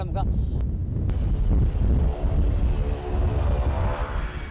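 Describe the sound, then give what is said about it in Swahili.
A commercial airliner arriving at Kismayo airport in Somalia, heard as a loud, steady low engine roar with wind buffeting throughout. “Na hapa ndege ya kibiashara inawasili uwanja wa Kismayo.”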